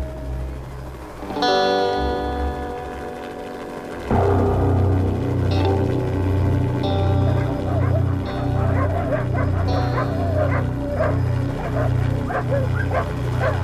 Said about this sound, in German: Die Hunde. Vorsicht, die Hunde.